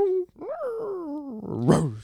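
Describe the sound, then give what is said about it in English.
A dog right outside a window makes an unusual drawn-out moaning howl that rises and then slides down in pitch, ending in a rougher, noisier burst. “What was that noise? That's my dog. Or maybe your dog. I don't know. They're right outside the window. I've never heard her do that.”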